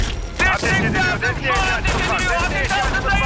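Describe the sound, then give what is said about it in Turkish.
Gunfire during a tense shootout: several sharp bursts crack through a dense mix of shouting voices and mechanical clatter. “Ateş ediliyor. Ateş ediliyor.”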